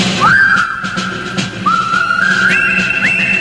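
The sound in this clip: A person whistles a tune in clear, bright notes, with upward slides into the tones. The melody sounds loud over a steady background murmur.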